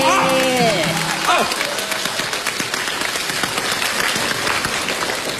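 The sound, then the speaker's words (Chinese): Audience applause rolls on as a steady, dense patter of clapping, with a voice sounding briefly at the start. “亲爱的观众，你们听这破玩意儿，你们还鼓掌呢，是吧？”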